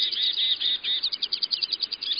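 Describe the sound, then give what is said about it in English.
Birdsong from robins, a house finch and a lesser goldfinch: a dense stream of high, bright chirps and warbled notes that overlap continuously, loud and busy with no voices. “Robins, housefinch, and lesser goldfinch singing with gusto.”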